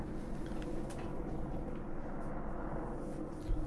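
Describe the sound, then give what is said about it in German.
Four military helicopters flying overhead make a faint, continuous low rumbling drone that stays fairly even from start to finish, with no talk. “da fliegen gerade irgendwie 500 Militärhubschrauber hier drüber. Guck mal zum Fenster raus.”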